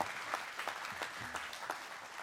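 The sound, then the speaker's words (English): A church audience applauds with fairly soft, continuous clapping and a dense patter of many hands throughout, with no voices standing out. “Can we clap for that?”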